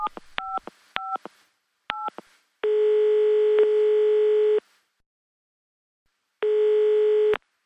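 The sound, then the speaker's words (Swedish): A telephone is dialled to call a friend. A few short keypad beeps come first, then two long steady ringing tones separated by a silent gap, with no voices. “Vänta, jag ska ringa henne.”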